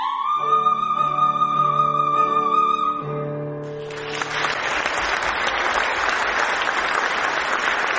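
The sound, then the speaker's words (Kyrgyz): A held musical note of an opera aria at a Türksoy concert in Istanbul gives way to loud, sustained applause from the Turkish audience, the clapping swelling in and staying dense to the end. “классикалык опералардагы арияларынан аткарган үзүндүлөрүнө эл канаттанбай калгандай узакка кол чаап жатышты.”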